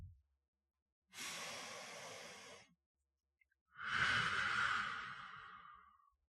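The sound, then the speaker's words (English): A deep breath in during a guided breathing moment: two long, airy breath sounds of about one and a half and two and a half seconds, separated by a brief silence, with no talking. “Take a few moments, just Breathe in.”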